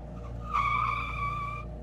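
A car brakes suddenly on a residential subdivision street, its tires squealing in a loud, tonal skid for about a second over a steady low engine drone that continues after the squeal stops.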